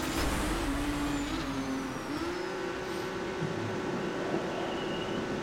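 A racing car engine in the video game Trackmania drones on steadily, its buzzing tone shifting slightly in pitch as the car holds speed, with a constant wash of road noise beneath.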